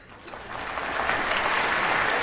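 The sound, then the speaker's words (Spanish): Audience applause at a high school choir's annual autumn concert, clapping that swells from a modest start into a full, sustained ovation. “Los Rossi aplauden junto con el público.”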